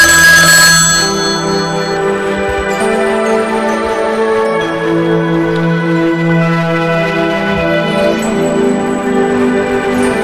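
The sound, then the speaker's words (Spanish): A telephone rings with an incoming call on a radio call-in program, a steady, loud electronic ringtone with bright, sustained tones that repeats throughout without pause. “Tenemos la primera llamada de la tarde. Vamos a ver quién nos llama.”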